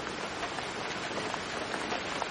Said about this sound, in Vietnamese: Tiếng mưa trên lá chuối tây lập tức trở nên rõ ràng.